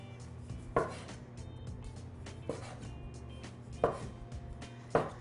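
Knife slicing through dough onto a cookie sheet: four short, dull cuts at uneven intervals over a low, steady hum.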